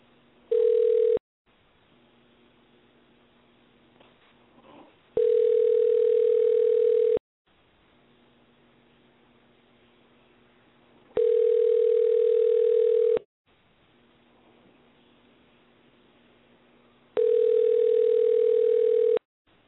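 A telephone line tone comes after dialing a call, sounding as steady, loud pulses of about two seconds each. There are four in all, the first shorter, separated by long gaps of faint hiss.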